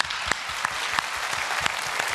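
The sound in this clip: Audience applause with dense, steady clapping throughout and a few sharper claps standing out at regular moments.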